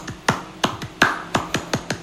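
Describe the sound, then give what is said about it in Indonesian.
Indonesian scout clapping routine (tepuk pramuka): eight sharp hand claps in an uneven rhythmic pattern, crisp and fairly loud, with short silent gaps between them. “Tepuk pramuka gimana? Tepuk pramuka.”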